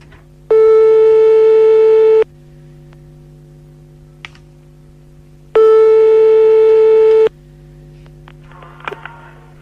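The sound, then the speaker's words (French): Telephone line tone while calling a listener live: two long, steady electronic tone bursts separated by a pause, heard alone over a low constant hum. “Simone, c'est parti, on l'appelle Simone. En direct.”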